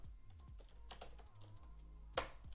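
Faint clicks of control and arrow keys being pressed on a computer keyboard: a few soft, scattered taps, then one sharper, louder keystroke near the end.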